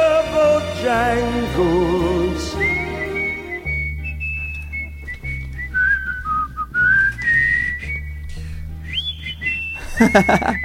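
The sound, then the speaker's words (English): Person whistling the classic tune a song live in a studio, a loud, clear melodic line that swoops and trills through a wide range, climbing to piercing high notes near the end over sustained low backing tones. “He whistles up there. I can't hit those with my whistle.”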